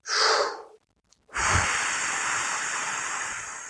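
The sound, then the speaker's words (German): A breathing exercise for saxophone playing: one short, airy inhale, a brief silence, then a long, steady hissing exhale that lasts much longer and stays even in loudness. “Ich zeige dir das mal. Also ich atme eins, ein und atme dann drei, vier Schläge aus. Ich mache es mit drei.”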